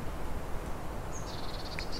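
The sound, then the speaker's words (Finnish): Blue tit calling in a spring grove as the wind picks up, a quick run of thin, high, evenly spaced notes in the second half, faint above steady rushing noise. “Sinitiainenkin tuli kertomaan omat kevätterveisensä.”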